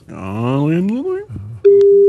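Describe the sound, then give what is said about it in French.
Telephone ringback tone as a call rings through to a home line: after a short stretch of voice, a single steady mid-pitched tone starts and holds loud to the end. “Quatrième sonnerie. Une cinquième pour la forme.”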